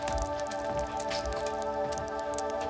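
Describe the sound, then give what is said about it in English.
Water leaks and drips down a wall with a continuous, fairly faint patter of small drips and splashes over a steady low tonal hum. “Have you got water running back there? No. Come take a look at this. We've got a leak.”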